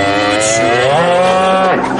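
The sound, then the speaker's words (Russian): A cow gives one loud, drawn-out moo, rich and resonant, its pitch wavering slightly before dropping at the end. “Появляется корова, подруга Юлия.”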